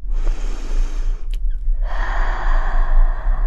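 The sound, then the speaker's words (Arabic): Deep breathing demonstrated by a person: two long, loud breaths of rushing air, split by a brief pause, with no talk over them. “الآن حان دوري كي أسألكما، كيف تتنفسان؟ هكذا.”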